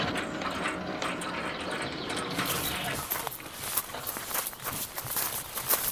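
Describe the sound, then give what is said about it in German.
A gate opening at a large house: a steady mechanical whirring hiss gives way to a quick run of ratcheting clicks and gear-like ticks, moderately loud and without voices. “Ah, das Tor geht auf. Man hat uns bemerkt.”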